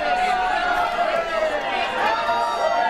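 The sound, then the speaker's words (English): An agitated audience at a mayoral debate in Miami Beach shouts and calls out in many overlapping voices. The raised clamor goes on without a break. “Yes, that is the sound of politics, of making an election in Miami Beach. The sound of a mayoral race. The audience riled up at a mayoral debate earlier this year in Miami Beach.”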